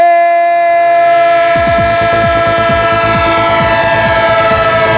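A passing train sounds its horn in one loud, steady, multi-toned blast. After a short moment a fast, rhythmic clatter of wheels joins underneath and runs to the end.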